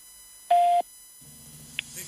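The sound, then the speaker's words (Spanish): An Antel voicemail beep before a message is left: one steady, mid-pitched tone lasting about a third of a second, followed by quiet line noise, a brief faint blip and soft talking. “Por favor, deje un mensaje. Después del tono, después del tono.”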